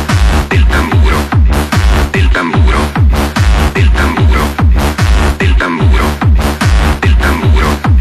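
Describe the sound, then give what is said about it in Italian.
Drum beats in march music, loud deep thumps struck in a steady, regular rhythm that repeats evenly throughout. “Attenzione ai colpi del tamburo.”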